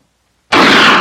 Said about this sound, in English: Shoot Bobby, Raymond. Through the forehead.